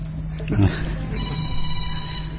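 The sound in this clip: A mobile phone rings during a Quran exegesis lesson. Its ringtone chirps under a man's voice as he keeps speaking to the class.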